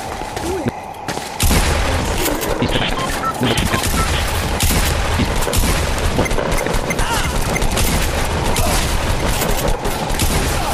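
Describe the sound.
Gunfire in a multiplayer shooter video game match: loud, continuous volleys of rapid shots mixed with heavier booms, running almost without pause for around nine seconds.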